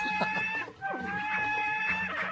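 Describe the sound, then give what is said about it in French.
A turkey attacking in a video game, giving short, harmonic clucking and gobbling calls in quick succession, fairly faint. “Comme par exemple quand je suis attaqué par un dindon. Je vais lui faire tâter de mon épée à ce dindon.”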